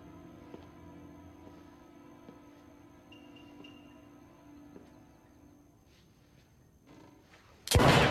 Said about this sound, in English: A dark-haired woman fells him with a shot from her gun.